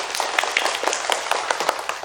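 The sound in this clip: Scattered handclaps from students at a school award ceremony, congratulating the winning group, a quick run of many sharp, fairly soft claps of uneven spacing.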